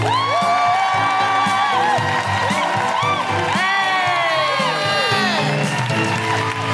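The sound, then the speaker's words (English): A live comedy show audience in Glasgow clapping and cheering to welcome a guest, with loud whoops and shouts riding over continuous applause at a full, even level throughout. “Put your hands together and make incredible welcoming noises”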